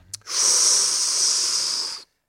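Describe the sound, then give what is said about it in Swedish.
A single deep breath taken by a man, a loud, airy, hissing rush lasting about two seconds, steady throughout and ending abruptly. “Herregud, jag ska ta ett djupt andetag bara.”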